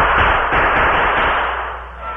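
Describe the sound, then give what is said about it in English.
Rifle gunshots ring out as loud, sharp blasts that merge into a rolling, rumbling tail, which fades over the last second. “Oh, them plenty mad. I'll give them a few more shots.”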